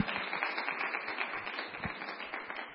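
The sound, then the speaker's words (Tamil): An audience clapping to welcome a guest, a faint, dense and steady patter of many hands that continues throughout. “தயவு செய்து அவருடைய கரைகள் தட்டி உற்சாக நான் வரவேற்கிறேன்.”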